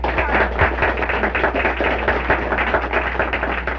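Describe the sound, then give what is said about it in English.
Sustained applause from an audience, many overlapping claps forming a dense, even wash from start to finish, with a low steady hum underneath. “So let us give one more round of applause to”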